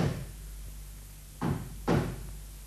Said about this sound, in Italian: Vado ad aprire. Picchiano.